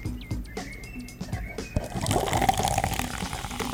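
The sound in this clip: A bottle of fizzy drink is opened and poured close up. Soft clicks and light tonal squeaks come first, then a bright, dense crackling fizz builds and holds steady to the end.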